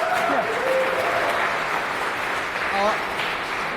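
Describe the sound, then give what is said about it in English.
Applause from a conference audience welcoming the final talk of the day: steady, dense clapping that fills the whole clip, with a voice briefly heard over it at moments. “A round of applause, please”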